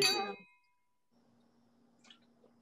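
Glasses clink together in a toast. A single bright, loud clink rings out with a shimmering tone that quickly fades, leaving near silence with a faint low hum.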